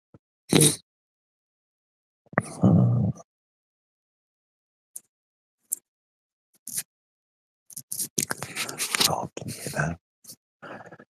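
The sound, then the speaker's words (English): Stubble rubbed against a microphone in an ASMR recording produces short scratchy bursts between stretches of silence, then a denser run of rasping friction near the end. “My stubble growing back a little bit. It's like the stubble ASMR again.”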